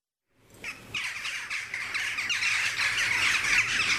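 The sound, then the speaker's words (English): Jackdaws calling in a backyard in Wales: a dense, continuous chorus of many harsh squawks and chattering calls. It begins abruptly and stays loud and busy throughout. “That's the sound of jackdaws in the backyard of Izzy, my niece's house in Wales”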